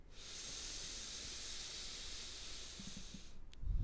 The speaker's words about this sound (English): Exhale through our mouth. Inhale through our nose.